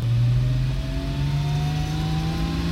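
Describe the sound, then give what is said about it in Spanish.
A motorcycle engine accelerating in a getaway, a loud continuous drone whose pitch climbs steadily throughout without a break. “Vamos, acelere. Mierda, se ha traído la moto.”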